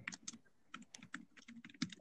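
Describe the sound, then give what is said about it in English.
Typing on a computer keyboard: many quick, light keystroke clicks in an uneven rhythm, fairly faint and heard alone. “Really, you're gonna just type it?”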